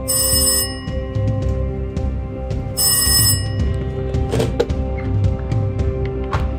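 A telephone rings in two bright, insistent bursts separated by a pause, over a low steady background.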